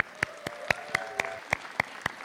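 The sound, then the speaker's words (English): Applause at a community organizing event, heard as a steady run of about eight sharp, evenly spaced claps rather than a dense crowd roar. “And so I want to give you all a round of applause.”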